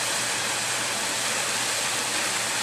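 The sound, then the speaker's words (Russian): Water runs steadily from a jacuzzi down into a swimming pool, a constant, even rushing hiss with no breaks. “Бассейн очень милый. И там тоже, как положено, джакузи сверху. Вот так залез сверху и сидишь, а водичка стекает.”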